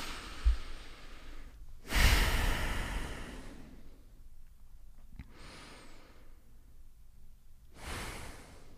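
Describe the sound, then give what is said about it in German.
Deep breaths drawn in and let out during a guided seated relaxation exercise, a few soft, broad rushes of air separated by quieter pauses, with no talking. “zwei, dreimal tief ein- und ausatmen.”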